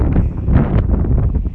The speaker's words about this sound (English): It's quite windy. Hoping that this won't interfere too much with the recording.